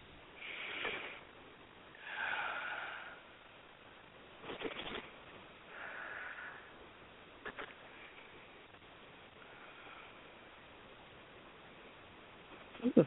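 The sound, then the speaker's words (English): A person taking a few slow, deep breaths. Each one is a soft, airy rush separated by quiet pauses, faint overall, with no talking. “And take 3 nice deep breaths.”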